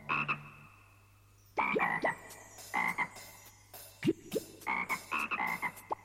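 A toad croaking in many short, raspy calls that come in quick irregular bursts, with a brief pause early on, loud and clear.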